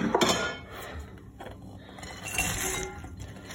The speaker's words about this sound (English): So mix that up. So it all goes in the bowl.